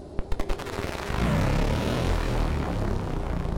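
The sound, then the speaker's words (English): Sound effects of a superhero shooting ice from his hand and flying: a rapid string of sharp, gunfire-like blasts at the start, then a loud, sustained roaring whoosh like a jet that holds to the end. “The man can shoot ice from his hand and fly.”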